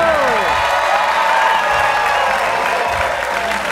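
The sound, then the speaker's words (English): Loud audience applause and cheering at a live show at the Largo Theater in Hollywood: a dense, steady wash of clapping with shouts mixed in, sustained from start to finish. “Ladies and gentlemen, live from the Largo Theater in Hollywood, put your hands together for Mr. Ron Burgundy!”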